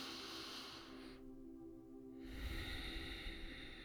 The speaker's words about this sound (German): Nimm noch mal einen tiefen Atemzug.